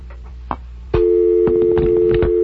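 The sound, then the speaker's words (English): A telephone line tone sounds while an outside call is dialed: a few soft taps and clicks come first, then a steady continuous electronic tone starts about a third of the way in and holds, broken by several brief clicks. “Dial 9 first to get an outside line.”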